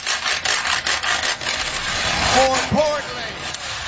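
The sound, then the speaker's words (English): Wooden spoons scraped on a washboard, a rhythmic series of dry, rasping strokes, followed by a short vocal sound near the end. “busted out a pair of wooden spoons and a washboard and started scraping away”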